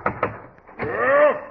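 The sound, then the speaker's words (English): Two quick knocks land close together on a dressing room door, followed by a voice. “He's in here. Yes, I'll knock.”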